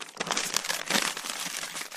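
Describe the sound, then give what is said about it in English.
Paper rustles and crinkles continuously, a steady crisp crackling of fairly even loudness for the whole stretch, with no voices. “Okay, paper ruffling, that's enough.”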